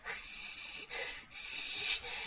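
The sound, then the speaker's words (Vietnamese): A voice imitates a ghost's raspy breathing with three breathy, hissing rasps in a row, each separated by a brief dip, heard alone without talking. “thầy nghe rất là rõ tiếng thở của người đó, nó khì khì khì”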